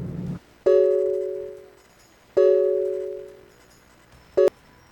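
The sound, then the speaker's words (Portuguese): Telephone tones sound as a phone is dialed to call someone: two long, steady electronic tones with a pause between them, then one short beep near the end. “Eu vou lhe ligar, Leciano, em outro número”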